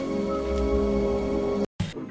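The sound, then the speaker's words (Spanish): Rain falls with a steady, dense hiss under a sustained humming tone. The sound cuts out briefly near the end and then resumes. “Podía dejar de llover por una vez. No llueve eternamente.”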